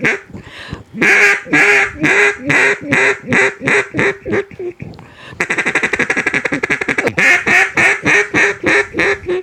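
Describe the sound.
An old PS Alt cut-down duck call is blown in a long string of loud, raspy quacks in a steady rhythm. A faster run of short, clipped notes follows, then more evenly spaced quacks.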